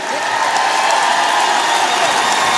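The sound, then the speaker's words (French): Applause and cheering from a live audience greeting a band at the end of its set, a dense, steady wash of clapping and crowd noise that stays loud and even throughout. “Merci beaucoup. Bon anniversaire en double expresso. Faites du bruit.”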